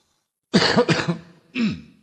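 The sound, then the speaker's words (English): A person clears their throat in two rough, gravelly bursts: a longer rasping one, then a shorter one after a brief pause. No speech is heard. “Just clearing my throat for a moment, and hopefully clearing my mind as well.”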